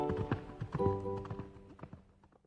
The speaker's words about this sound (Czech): poděkoval mu za vše, co pro něho koník udělal. Ten vesele zařechtal a ve chvíli zmizel za lesem.